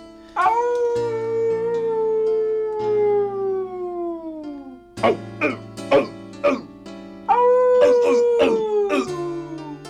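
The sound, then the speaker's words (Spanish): A wolf howling at dusk to call a dog: two long, drawn-out howls that slide downward in pitch, separated by a few short, gruff, harsh bursts. “Al cabo de unos días, al anochecer, el lobo aulló llamando al perro.”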